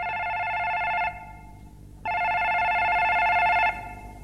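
A telephone rings in two long electronic bursts separated by a short pause, each ring loud and steady with a bright buzzing tone and no voices.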